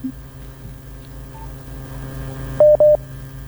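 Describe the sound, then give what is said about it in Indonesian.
Two short touch-tone dialing beeps, dialed to reconnect a dropped phone call, sound in quick succession near the end, loud above a steady low mains hum that runs throughout. “Oh ternyata sambungan teleponnya tadi terputus ya. Kita kembali mencoba terhubung.”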